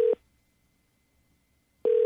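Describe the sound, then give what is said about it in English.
Ringback tone on an outgoing telephone call: one burst of steady electronic tone fades out at the start and another begins at the end, with near silence between. “Okay, it's ringing.”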